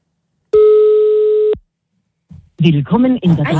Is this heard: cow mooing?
no